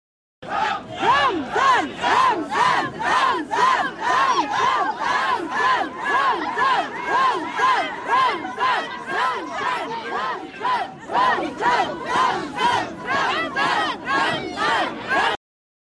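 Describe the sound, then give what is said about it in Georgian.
A crowd rallying in central Grozny, Chechnya, loudly shouts Allahu Akbar and the Chechen leader's name in many rhythmic, evenly spaced bursts that continue for about sixteen seconds. “გროზნოს ცენტრში შეკრებილი ადამიანები კი ხმამაღლა გახვიდოდნენ ალაჰ აკბარს და ჩეჩნეთის ლიდერის სახელს.”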